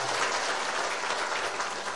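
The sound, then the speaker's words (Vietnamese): An audience applauds to welcome a senior Buddhist monk at a Buddhist gathering, with a dense, loud, unbroken wash of clapping from many hands. “Quý vị hãy dành một tràng pháo tay cung kính để cung đón Thượng Tọa.”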